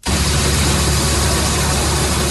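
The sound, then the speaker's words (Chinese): A combine harvester runs at full power in a ratoon rice field in Jianping town, Langxi county, Xuancheng, Anhui. Its engine makes a steady, loud drone with a deep low hum that stays even throughout, and no voices are heard. “在安徽宣城郎溪县建平镇的再生稻田里，收割机开足马力穿梭，切割脱粒装车一气呵成。”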